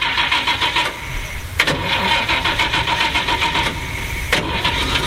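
A delivery van's engine starts at the opening of a song: rapid cranking pulses catch into a steady rough running engine, loud throughout, with a couple of sharp bursts as it revs.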